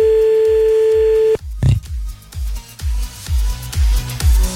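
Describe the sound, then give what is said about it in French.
A telephone being redialed after a dropped call: a steady dial tone hums, breaks off, then a run of short, evenly spaced tone bursts repeats many times. “On va donc rappeler encore un coup.”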